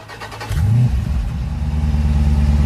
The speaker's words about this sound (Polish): Całkiem przyjemny motor tutaj na koniec nam wybrzmiał.